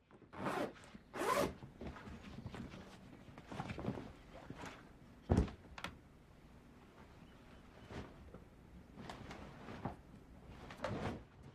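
A bag is zipped up in a series of short, quiet zipper strokes, some quick and rasping and others drawn out, with soft pauses between them.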